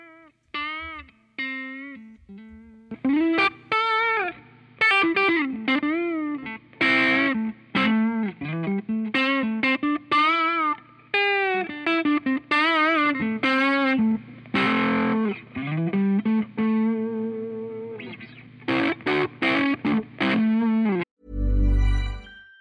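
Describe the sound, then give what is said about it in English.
Telecaster electric guitar played mostly on the neck pickup through distortion and other effects with a little spring reverb, picking out a melodic line of many gliding, sustained notes with short pauses between phrases. “And I am using the Baha Telecaster for this one, mostly on the neck pickup. Let's give it a listen.”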